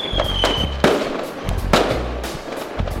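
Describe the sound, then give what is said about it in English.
Gunshots mixed with popping Fourth of July fireworks within a music beat: a few sharp, loud bangs with short decaying tails over a continuous low rumbling backing. “I actually love like the way you combine the sounds of a gun being fired, as well as popping of like fireworks, because it was 4th of July”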